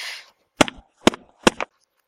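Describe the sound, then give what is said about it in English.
Three sharp smacks of a large, round-headed wooden spoon striking a bare buttock, evenly spaced, each crack followed by a softer slap, with silence between them. “you bring the large, round head of the spoon down against the very top of my exposed left ass cheek.”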